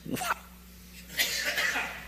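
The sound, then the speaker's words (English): A person coughs, two short harsh bursts followed by a longer rasping one, fairly loud with no talk over it. “excuse me, sorry. I cough loud enough without a microphone.”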